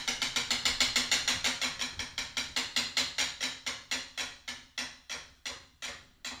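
A game show prize wheel spinning. Its pointer ratchets in a fast, regular series of crisp ticks that gradually spread apart as the wheel slows down.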